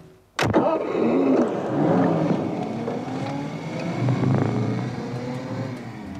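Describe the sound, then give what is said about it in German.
Car accelerating at full throttle: a sudden loud burst, then a sustained engine roar whose pitch climbs, drops back and climbs again. “Vollgas”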